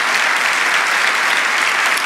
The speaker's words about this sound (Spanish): Debe dar palmas para Jesús. Podemos darle palmas para Jesús.